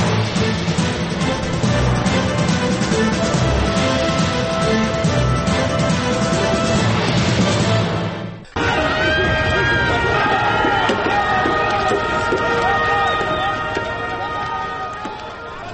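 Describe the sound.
A large crowd roars at anti-American protests, a dense wall of shouting and chanting voices that runs continuously and loudly, broken only by a brief drop just past halfway.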